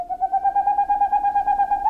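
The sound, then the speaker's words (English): Boreal owl song on a moonless spring night: a long, rapid, even series of hollow hoots at a steady mid pitch. The notes are moderately loud and run without a break. “On a moonless spring night, the songs of boreal owls echo across Alaska and Canada, and from Scandinavia to Siberia.”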